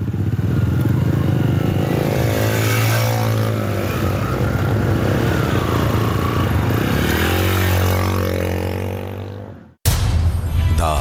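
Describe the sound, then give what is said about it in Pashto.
Motorcycles ride one after another, red 125cc machines and a black 150cc one. Their loud, continuous engine drone wavers in pitch as they rev, then drops out sharply just before the end. “125 سی سی د سرو رنگونو موټر سایکل وي، خو وسیم سره تور رنگ 150 سی سی موټر سایکل او وار په وار یو بل پسې روان شو.”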